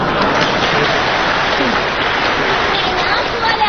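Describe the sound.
A stage audience claps for a comedy sketch, a dense, even wash of applause that stays loud and steady throughout.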